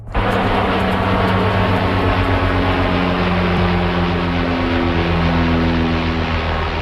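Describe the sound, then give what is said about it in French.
A Canadair water bomber flying over wildfires in the Okanagan Valley, British Columbia, makes a loud, continuous propeller-engine roar with steady low humming tones throughout and no voices. “Ce que vous venez d'entendre, c'est le vol d'un Canadair au-dessus des feux qui ravagent en ce moment la vallée de l'Okanagan en Colombie-Britannique.”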